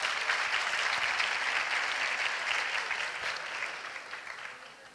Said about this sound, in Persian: اونا که میگن بده، به افتخار خودتون یه دست بزنید.